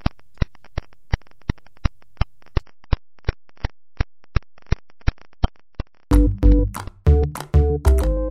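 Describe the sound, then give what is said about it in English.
Pulsar radiation pulses rendered as sound form a steady train of sharp, identical clicks at about three per second for roughly six seconds. A louder, denser tonal sound then takes over. “And the sound you're hearing is these pulses of radiation. It's what microwaves sound like.”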